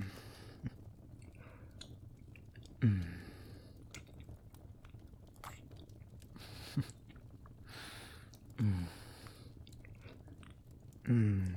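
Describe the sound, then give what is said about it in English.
Wet licking and slurping mouth sounds, soft and close, broken by a few louder smacking bursts over a quiet hiss. “God, you taste amazing. I just can't stop licking.”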